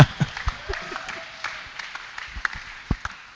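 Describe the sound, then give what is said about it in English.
Scattered, irregular clapping from a church audience welcoming a bishop, individual claps popping out over a low murmur of voices. “Why don't you rise up onto your feet with a shout and a clap offering. Let's welcome our bishop, Bishop Jake Godwill, all the way from South Africa.”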